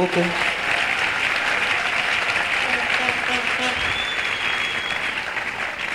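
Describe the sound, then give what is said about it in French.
Audience applause at an evening talk: dense, even clapping that stays loud and steady for about six seconds without a break. “Allons-y, on peut l'acclamer.”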